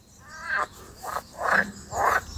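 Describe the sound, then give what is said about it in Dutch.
Green frogs croak in a sunny marshy patch of a garden, four raspy, buzzing calls spaced out over a couple of seconds, fairly loud against a quiet background. “op de heemtuin in Goudse Hout waren de groene kikkers gezellig met elkaar aan het kwaken”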